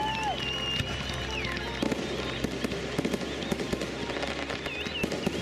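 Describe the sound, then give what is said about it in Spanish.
Fireworks exploding in many sharp bangs and crackles over a steady dense roar, with a few thin whistling tones rising and falling through the bursts. “¿quién no adora los fuegos artificiales?”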